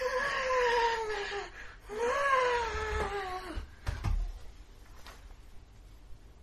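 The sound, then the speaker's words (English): A voice imitates the high-pitched wailing of a monster plant: two long, drawn-out whining cries, the second sliding downward in pitch, followed by a few fainter low thumps. “Being a movie plant, the plant will actually make noises. Yeah. It begins to make this sort of high pitched wailing of.”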